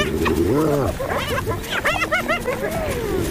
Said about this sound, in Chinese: 当其他斑鬣狗也加入战斗，胜利就是属于他们的